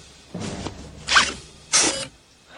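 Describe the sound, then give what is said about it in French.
Mechanical whirring and zipping from an automatic self-lacing shoe mechanism tightening, in three short bursts, the second and third louder and brighter than the first. “Lassage automatique, waouh!”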